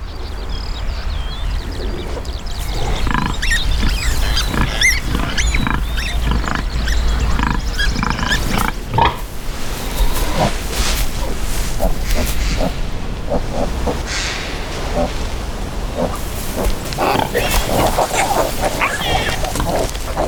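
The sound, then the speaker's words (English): Pig grunts and snuffles from a wordless black-and-white nature film, many short calls scattered over a steady bed of outdoor wildlife sound, with no dialogue. “And it's a documentary about a pig. It's black and white. It has no dialogue in it apart, and the sound is just of the wild sound of nature.”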